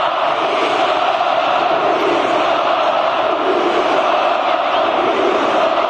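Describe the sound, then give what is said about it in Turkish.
A large crowd of Beşiktaş fans roars and cheers in the packed stands of Tüpraş Stadium during a signing ceremony. The noise is a loud, dense, continuous wash with no breaks from start to finish. “Siyah beyazlı taraftarlar uzun süre alkış tuttu ve tezahüratlarda bulundu.”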